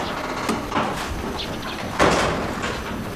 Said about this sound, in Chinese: 门给我关上！